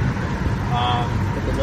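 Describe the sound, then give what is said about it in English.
Steady, loud roadway rumble of a car driving over a bridge in traffic, a dense wash of tire and engine noise holding level throughout with no clear breaks. “So we're driving over the Atlas Bridge right now.”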